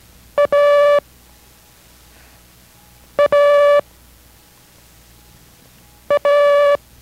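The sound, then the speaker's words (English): Morse code letter A sent in a code lesson, three times over as dit-dah: a short beep, then a longer steady tone at the same pitch, with silent gaps between each pair. “Listen carefully again to the sound of A for Abel. It's dida. Listen to its sound and copy.”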